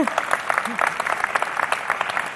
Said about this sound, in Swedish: ja jag tycker vi kan ge Jesus en applåd